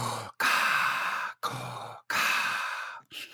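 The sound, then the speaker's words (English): Voice imitating heavy mechanical respirator breathing: loud, rasping inhales and exhales alternate in a few long, even breaths with brief gaps between them. “Either that, or you can just walk behind me doing the breathing of Darth Vader.”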